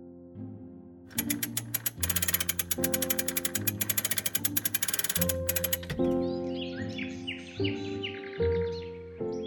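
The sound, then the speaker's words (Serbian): Rapid, evenly spaced ratchet clicks of a clock being wound with a key run for several seconds over steady tonal music, then give way to the music alone. “Sad samo da stavim novu bravu i dam vam ključ. I možete navijati časovnik.”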